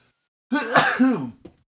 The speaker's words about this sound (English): I can tell you that my throat is trying to recover from this sneeze.